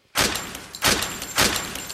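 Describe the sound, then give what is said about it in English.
Gunshots in a staged shootout: three sharp, loud blasts, each with a short decaying tail, fired at a steady pace about two-thirds of a second apart. “Shivers, that's horrible aim. You shot Little Bear.”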